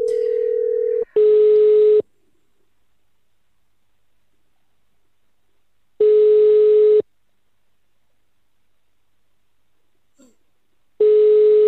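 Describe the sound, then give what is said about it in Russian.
A telephone dials a number: a steady low tone sounds for about a second, then three one-second ringing beeps follow, each separated by roughly four seconds of near silence. “набираем номер”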